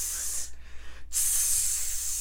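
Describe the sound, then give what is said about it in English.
A voice imitates a hair product spray with two long, sharp hissing bursts separated by a brief gap. “I just need that like soul glow so I can just spray it everywhere I'm going. So I just walk around like tss,”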